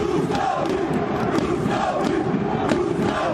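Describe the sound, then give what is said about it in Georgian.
Football fans chant loudly for their team after a win, a dense crowd roar of rhythmic massed voices with repeated shouted accents. “ასე სკანდირებდნენ რუსთაველი გულშემატკივრები საკუთარ გუნდს, როცა მატჩი რუსთავის გამარჯვებით დასრულდა.”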